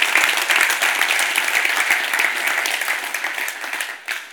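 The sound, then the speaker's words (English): Loud, dense audience applause for a camp's staff, a steady wash of many hands clapping that holds for several seconds before tapering off at the end. “can we just give Miracle Camp an incredible round of applause?”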